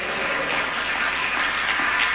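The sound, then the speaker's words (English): Congregation clapping hands at a church service, a continuous, fairly loud patter of many hands that stays even throughout without voices on top. “Clap your hand and say, praise the Lord.”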